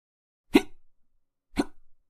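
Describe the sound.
A voice imitates hiccups: two sharp, abrupt gulping sounds about a second apart, each with a short, fading tail.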